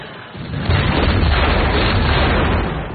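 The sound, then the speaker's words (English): An artillery shot explodes in a fireball against a fort's timber walls: a sudden heavy blast swells into a loud, sustained roar and rumble that holds steady for a few seconds. “It explodes in a fireball against the fort's timber walls. British soldiers are sent flying as more artillery is unleashed on the fort's defenses.”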